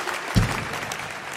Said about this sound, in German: Wir haben natürlich mit diesem Applaus gerechnet und haben selbstverständlich eine Zugabe für Sie